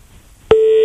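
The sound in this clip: A telephone tone after a call hangs up: faint near-silence, then a loud, steady electronic tone that starts abruptly and holds at one pitch to the end.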